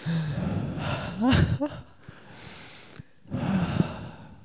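People breathe together as a calming moment for listeners falling asleep. A few uneven, audible inhales and exhales include a sharp, gasp-like intake and a snort, at faint to moderate loudness.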